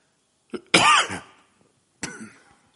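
Coughing and throat clearing: a short cough, then a longer, harsh, rasping clearing of the throat, and a second brief cough after a pause. The sounds are fairly loud and heard alone, without talk.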